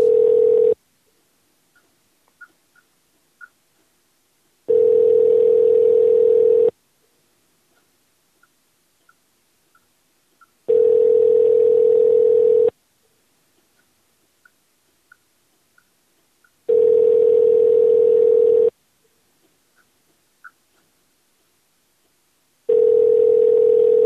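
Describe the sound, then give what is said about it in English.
Ringback tones from an outgoing telephone call being placed: a steady electronic tone repeats in roughly two-second bursts separated by longer silences, with faint ticks in the gaps and no voices. “Let's try it again. Call him back.”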